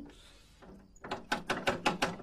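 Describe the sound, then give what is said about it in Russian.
Knocking on a house door, six quick evenly spaced raps, fairly loud and sharp, following a brief quieter rustle. “Парень стучит в дверь”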